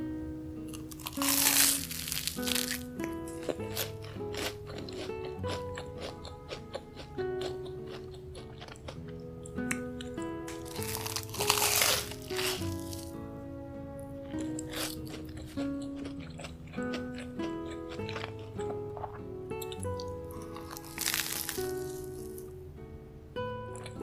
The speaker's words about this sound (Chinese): 想吃我做的三明治，今天我特地早起给你做的呢，味道保证比外面的好吃，尝尝看。